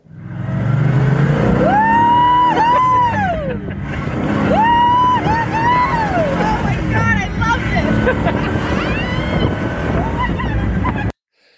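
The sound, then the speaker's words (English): A convertible GTO driving at about 100 miles an hour, with the top down and a passenger in the back seat. A loud, constant roar and rush of wind carry voices shouting and whooping over it, cutting off abruptly at the end. “That was hitting about 100 miles an hour in a convertible GTO.”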